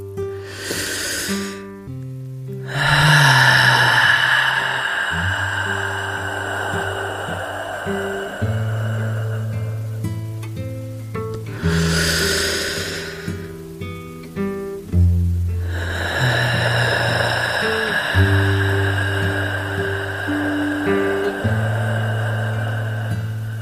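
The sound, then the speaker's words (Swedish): Slow, deep breathing in and out, a few long airy breaths rising and falling over soft, sustained musical tones, with quiet pauses between them. “Vi tar några djupa andetag och för varje utandning så slappnar vi av lite till i någon ny muskel.”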